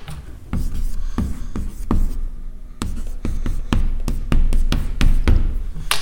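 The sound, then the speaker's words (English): Erasing writing from a board: many short, scuffing rubbing strokes in a quick, uneven rhythm, each a brief dry swipe, with no one talking over them. “Got to erase this here.”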